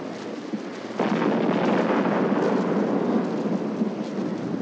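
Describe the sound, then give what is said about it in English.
Bombs exploding during a nighttime air raid on the Normandy invasion fleet of June 6th, heard as a deep, loud, continuous rumbling reverberation that swells at about one second and rolls on steadily, with no distinct separate blasts. “The reverberation of bombs.”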